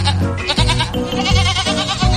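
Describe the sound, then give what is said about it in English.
Goats on a transit bus bleat loudly in repeated, wavering cries, several overlapping calls following one another with short dips between them. “If the wheels on the bus go round and round, the goats on the bus must go...”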